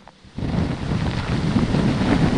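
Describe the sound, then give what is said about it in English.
Strong wind from Hurricane Ian arriving in Florida. A short, quieter moment gives way abruptly to a loud, constant roaring and buffeting rush that stays heavy throughout. “And it gets more ominous, and the wind speeds pick up steadily.”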